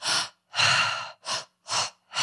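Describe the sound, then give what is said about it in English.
Pranayama breathwork breathing, meant as two quick in-breaths followed by an exhale. Loud, airy breaths come in a rhythmic series of five, short sharp pulls mixed with one longer drawn breath, separated by brief silences. “So it's 2 quick in breaths and then exhale, like,”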